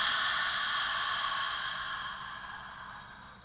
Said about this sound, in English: Let's take a nice deep breath in through our nose and release.